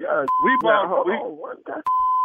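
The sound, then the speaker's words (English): Telephone tones as a man calls his wife: two steady, mid-pitched electronic tones, the second a little longer than the first, with a man's voice talking before, between and after them. “Let me get my wife on. I need to get my wife on the phone.”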